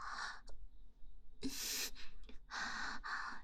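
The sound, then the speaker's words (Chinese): Rapid, heavy breathing: a run of harsh, gasping inhales and exhales in quick succession, soft in level, with no speech. “呼吸这么急促啊”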